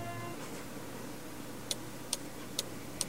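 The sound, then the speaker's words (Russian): Clock ticking in a living room, four crisp, evenly spaced ticks in the second half over a faint, steady background hum. “В гостиной говорящие часы настойчиво пели. Тик-так, тик-так”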